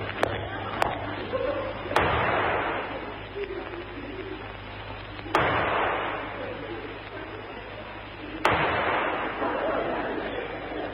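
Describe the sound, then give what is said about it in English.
Pistols fire in a duel: three sharp bangs spaced a few seconds apart, each trailing off into a decaying tail over a steady low hum, with a couple of faint clicks before the first shot. “Take this pistol. I warn you, I never miss. Nor I. One shot, Moriarty, they call me. Now back to back, three paces, and then we fire at you.”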